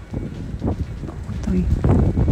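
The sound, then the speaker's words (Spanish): Warm wind blows in Buin, Chile, a steady low buffeting rumble with voices faintly underneath. “De hecho, nos han hecho llegar algunos videos desde Buin, desde otros puntos. Mira, ahí se escucha el viento.”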